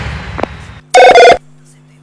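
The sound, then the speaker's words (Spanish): A telephone rings on a radio station's call-in line: one short, loud electronic ring made of two quick pulses, after faint talk and followed by quiet. “Los teléfonos de la radio.”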